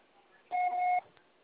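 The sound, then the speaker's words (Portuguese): Voicemail beep signalling the start of message recording: a single steady electronic tone lasts about half a second, standing alone against a faint background. “aguardamos seu recado. O processo será tarifado após o sinal.”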